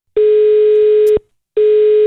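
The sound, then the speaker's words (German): Telephone call tone when phoning the Thurgau cantonal police: two long, steady, mid-pitched beeps separated by a short gap, loud and alone with no voices. “Und darum hat er gestern mal ganz frech der Kantonspolizei Thurgau angerufen mit einer besonderen Anfrage.”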